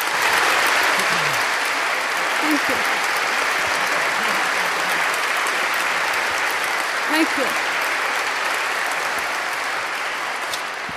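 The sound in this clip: Audience applause welcoming a speaker to the stage at an evening anti-war event: a dense, steady roar of clapping that holds evenly for the full length, with faint voices underneath.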